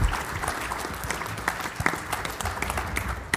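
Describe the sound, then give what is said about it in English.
An audience at a sponsored conference panel applauds to welcome a speaker, with brisk, dense hand clapping that stays fairly even and loud across a few seconds. “I'd like to ask you to put your hands together and welcome from AutoVen, Richard Carpentier, to say a few words.”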